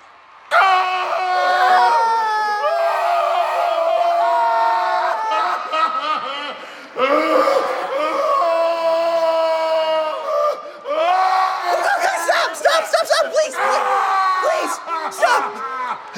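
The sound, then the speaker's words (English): Mournful wailing in lamentation as a voice acts out grief over a death, with long, quavering cries that swoop up and down in pitch, loud throughout with brief pauses around six and eleven seconds. “So Greta begins to mourn Dwight's death by wailing in lamentation.”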